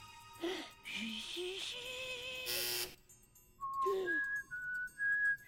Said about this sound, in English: He tries to whistle into the security pad.